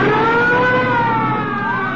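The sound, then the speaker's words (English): Police car sirens wail in steady, loud tones that glide slowly in pitch over the rumble of car engines during a chase, with no voices. “Police cars.”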